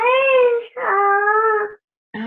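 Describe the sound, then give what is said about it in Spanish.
A baby cries in a few loud, high, sustained wailing bursts separated by brief breaths, the last cut short. “Dios, ¿quién llora por ahí? Bueno, ahorita encontramos a ver quién es.”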